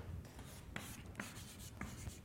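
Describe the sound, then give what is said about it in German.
Handwriting as a sentence is written down: faint, dry pen-on-paper scratching in short strokes, with a few sharper ticks among the steady rasp. “Jetzt schreibe ich Satz C auf.”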